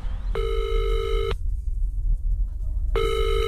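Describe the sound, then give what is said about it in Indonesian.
A ringback tone plays as a telephone call is placed: two steady, buzzy rings with a pause between them, over a low rumbling background. “Sebentar, aku harus telepon Ridwan.”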